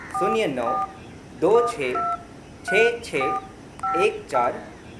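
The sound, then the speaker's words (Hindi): Telephone keypad beeps as a helpline number is dialed, several short tones in four separate bursts, each burst tangled with voice-like sounds. “लाइए मुझे phone दीजिए, मैं अभी number dial करके दिखाती हूँ।”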